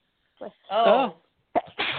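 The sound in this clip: A single loud, voiced sneeze, preceded by a short sharp intake of breath, during a conversation; someone begins talking right after it.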